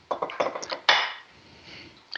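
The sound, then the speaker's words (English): A casserole dish is set onto a cooking sheet and its lid put on: a quick run of light knocks and clinks, then a louder clank that rings and slowly fades, with more brief clatter at the very end. “so our casserole, we're going to put that into the onto our cooking sheet and put our lid on.”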